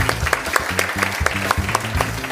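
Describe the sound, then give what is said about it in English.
An audience applauds with steady, dense clapping at a conference session, a continuous moderately loud patter of many hands with a few sharper individual claps. “a big round of applause for Ilana Wexler”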